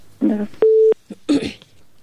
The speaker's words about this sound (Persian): فکر کنم بازم یک تماس داریم. خب تماس میگیریم.